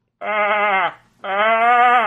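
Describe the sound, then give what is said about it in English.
A voice imitates a goat bleating, giving two long, wavering, nasal bleats separated by a short pause. The bleats are moderately loud and heard alone. “This is a goat. There's goats in the background.”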